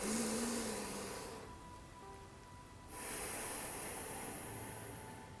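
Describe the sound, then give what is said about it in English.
Slow, quiet breathing in and out through the nose, heard as two soft, airy, drawn-out breaths separated by a short pause, with a faint hiss in the background. “Take a long but slow breath in through your nose. Always breathe through your nose. And then exhale very slowly.”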